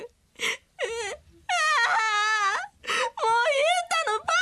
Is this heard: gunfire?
no